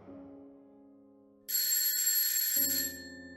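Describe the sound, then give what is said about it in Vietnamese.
An alarm clock rings and wakes a sleeper in the morning. A soft low tone fades out, then a loud, bright, high-pitched ring bursts in and holds steady for over a second before it eases off. “Tiếng chuông báo thức khiến cho tôi tỉnh giấc.”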